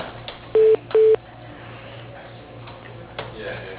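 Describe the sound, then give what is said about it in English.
Telephone dialing tones as a call is transferred to voicemail: two short, steady beeps in quick succession over a low background hum, followed by faint clicks. “Let me put you into his voicemail, okay?”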